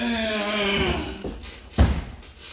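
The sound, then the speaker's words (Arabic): A jailer opens a prison door: a drawn-out, descending creak is followed by a single dull, heavy thud, then quiet. “افتح باب السجن يا سجان عشان الاميرة عايزة تتفرج على اللومان. امرك يا بنت السلطان. افتح الباب يا سجان.”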